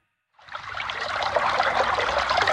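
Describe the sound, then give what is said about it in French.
Water trickling in a stream: a steady, bright rushing wash that starts after a short silence and then holds at an even level, with no voices. “Le bruit de l'eau, la détente”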